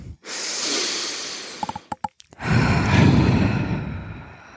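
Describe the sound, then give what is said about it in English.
A deep breath is drawn in through the nose with a long, airy hiss during a breathwork exercise. After a brief pause with a few small clicks, a long, loud exhale follows through the mouth. “So we'll do a couple breaths. Just the first one is take it in through the nose and out through the mouth.”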